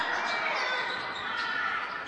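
Basketball dribbled on court during a college game in the final seconds of the half, a steady bouncing buried in loud, continuous crowd noise.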